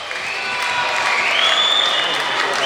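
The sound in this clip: The home crowd at a basketball game whistles at visiting fans entering the arena: shrill, sustained whistles, one climbing higher partway through, ride over a steady roar of crowd noise.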